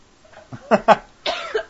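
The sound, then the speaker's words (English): Coughing from a woman who has just inhaled popcorn: a few harsh, rasping bursts in quick succession, with a longer, breathier cough near the end. “She just inhaled popcorn.”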